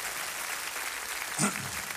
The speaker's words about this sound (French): Numéro 79, vous pouvez l'applaudir.